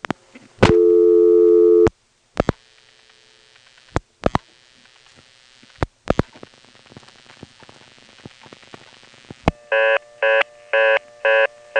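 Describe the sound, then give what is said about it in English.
A telephone reorder tone follows the dialing of 311 through the Elizabeth City tandem exchange: rapid, evenly spaced, loud mid-pitched beeps repeat at the end, after a long steady tone and a string of sharp line clicks. “On this next call, I get the reorder by dialing 311.”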